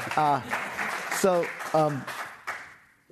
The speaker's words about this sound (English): Yeah, the audience is going crazy.